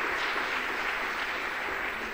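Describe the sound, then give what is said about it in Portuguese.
A church audience claps to praise the name of the Lord Jesus, a steady, dense patter of many hands that holds at an even level throughout. “Pode então assentar e as palmas para louvar o santo nome do Senhor Jesus.”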